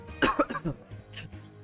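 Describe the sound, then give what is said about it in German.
A quick burst of several coughs from a person with a lingering cough, harsh and moderately loud, followed by a softer rasping throat sound. “Übrigens kann sein immer noch, dass ich zwischendurch mal husten muss.”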